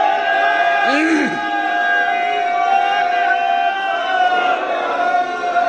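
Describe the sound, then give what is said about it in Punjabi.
Sikhs shout a jaikara war cry, voices rising in a loud, sustained, drawn-out shout that holds steady throughout. “ਇਹ ਇੱਕ ਸਿੰਘਾਂ ਚੋਂ ਜਕਾਰਾ ਛੱਡੋ ਬਈ, ਸ਼ਾਬਾਸ਼ ਗੱਜ ਕੇ।”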